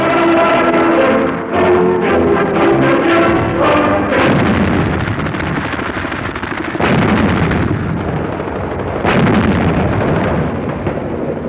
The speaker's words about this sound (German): Die feindlichen Stellungen werden durch Artillerie sturmreif geschossen.